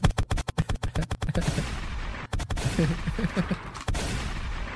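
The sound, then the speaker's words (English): Gunshot sound effects: a rapid string of many sharp, loud cracks fires in quick succession, then gives way to a noisy, rumbling stretch broken by a few more scattered shots. “Give me my FBA gun shots.”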